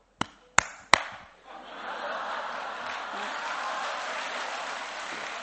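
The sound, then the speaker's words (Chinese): Audience applause at a Chinese crosstalk comedy show, preceded by three sharp, separate knocks, then a broad, steady wash of clapping that holds at an even level to the end. “还没进门呢就鼓掌啊！”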